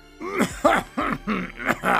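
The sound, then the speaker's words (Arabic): A vizier in a story coughs while speaking: several throaty, voiced coughs in close succession, each with a groaning, harmonic edge, fairly loud and with no words between them. “وواصل الوزير حديثه وهو يكح.”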